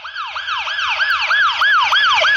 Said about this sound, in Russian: Действительно, вой сирены стремительно приближался.